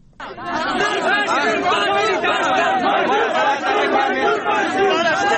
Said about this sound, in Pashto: دا آوازونه د پښتون ژغورنې غورځنګ د ملاتړ کوونکو دي. څوک چې د یاد ګوند مشر منظور احمد پښتین پېښور ته په ورتګ د هرکلي لپاره ولاړ وو.